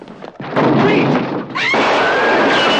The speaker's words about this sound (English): the police in the corridor ram the door with a trolley